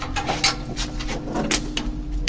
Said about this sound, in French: C'est une vieille serrure, non? Oui. Et elle s'ouvre en la poussant.